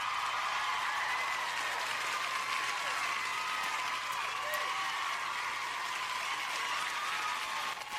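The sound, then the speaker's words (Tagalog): An audience applauds a first-time quiz winner with steady, sustained clapping that stays even and fairly loud for about eight seconds. “Congratulations! Pakpak mga binayran, pakpak!”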